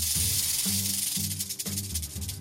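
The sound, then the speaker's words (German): A snake gives a steady, breathy hiss that runs without a break for a couple of seconds. “Schlangen können zischen oder fauchen, um den Gegner abzuschrecken.”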